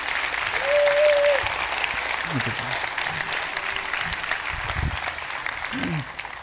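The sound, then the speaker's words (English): An audience applauds to welcome a couple onto a stage, a dense, steady wash of clapping that swells slightly early on and holds at an even level for several seconds. “Would you please welcome to the stage Gerald and Kim Hebert. Come on, give it up for them.”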